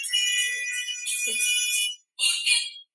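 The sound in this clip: A telephone rings with an incoming call: a bright, high electronic ringtone sounds for about two seconds, breaks off briefly, then starts again with a shorter burst.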